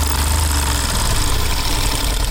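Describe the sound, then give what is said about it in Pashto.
A sewing machine runs in a prison tailoring workshop in Kabul, a loud, steady mechanical whir and rattle that holds constant throughout with no voices. “دا کابل د سرخیپ له زندان کې د خیاطۍ دستګاه ده چې په لسګونو زندانیان پکې دغه حرفه زده کوي.”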